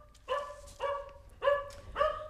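A dog barks four times at a visitor standing at the front door of a family house. Each bark is sharp and harmonic, spaced in an even rhythm at moderate loudness.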